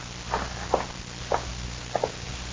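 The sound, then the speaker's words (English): Footsteps walk into a cabin as a few slow, soft thuds. The last two steps fall close together. “Walk ahead of me into the cabin. Go on.”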